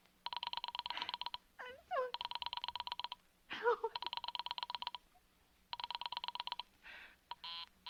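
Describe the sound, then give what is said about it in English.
Telephone tones sound as an operator rings a Murray Hill number. A pulsing, buzzing tone repeats in several long bursts, broken by brief voices. “Operator, for heaven's sake, will you ring that Murray Hill 40098 number again?”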